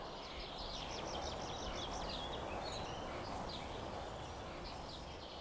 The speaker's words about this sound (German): Gott, die Vögel haben Durst.